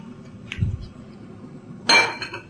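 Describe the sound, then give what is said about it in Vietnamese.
A lid is set onto a pot of pomelo peel being boiled, giving one bright metallic clank that rings briefly. A dull low knock comes earlier against a quiet background. “Rồi chúng ta sẽ đậy nắp lại và nấu sôi lần lần nữa.”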